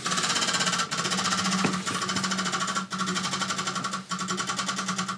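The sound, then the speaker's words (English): Rapid, dense clicking from a spun prize wheel in a punishment game keeps up loud and steady for the whole stretch, the ticks running together into a continuous rattle with only brief dips. “Give it a welly of a spin.”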